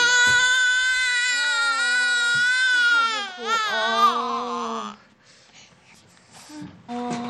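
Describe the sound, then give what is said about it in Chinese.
An infant cries in long, loud, high-pitched wails with a wavering pitch that rises and falls. The crying breaks off, and after a quiet gap a voice is heard briefly. “怎么回事啊？怎么老哭啊？ 没吃饱呗，当然哭了。”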